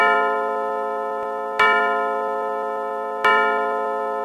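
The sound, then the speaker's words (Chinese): A clock strikes loudly a few times in a domestic scene from a stage play. Each stroke is a resonant, bell-like chime that rings on and decays slowly before the next, with no voices. “史密斯夫妇坐到两位客人的对面，钟重重响了几下，以表示不满。”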